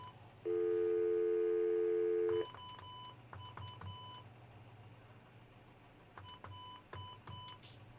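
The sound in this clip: Telephone tones as a call is placed by dialing 9 and an area-code number: a steady tone of about two seconds, then two bursts of patterned beeps over a low hum.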